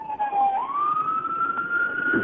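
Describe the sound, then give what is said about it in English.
A fire chief's vehicle siren passes by, one loud wailing tone that rises in pitch and then holds steady, over a constant rumble of road noise. “I'm driving. Anyway. Just had a fire chief go by.”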